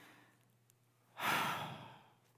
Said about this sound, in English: And so I just want all of us just to take a deep breath together.